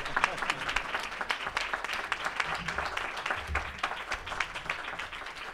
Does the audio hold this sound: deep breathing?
no